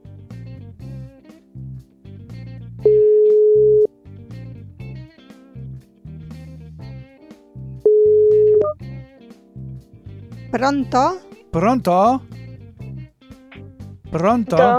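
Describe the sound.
Two long, steady ringback tones, each about a second, sound while a phone call is placed, with a long pause between them and soft low sounds underneath; voices then begin talking over the line.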